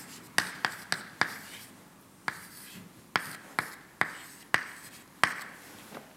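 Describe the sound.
Writing on a board during a physics lecture on actin polymerization: a series of sharp, faint taps and scratches in an irregular rhythm, with quiet gaps between them.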